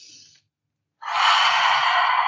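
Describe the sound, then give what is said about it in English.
A deep breath drawn in through the nose at the start of a relaxation exercise: a long, steady, loud airy rush after a short gap, preceded by a brief fainter breath sound. “Just taking a deep breath in through the nose to start”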